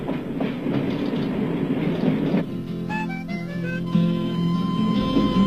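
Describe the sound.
An international train running on rails near Basel, a loud continuous rumble and clatter that thins after a couple of seconds as steady sustained tones come in over the rolling noise.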